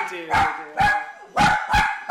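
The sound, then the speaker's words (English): Dogs bark in a one-story home, four loud, full barks falling into two closely spaced pairs with a short gap between them. “Her three dogs keep her company.”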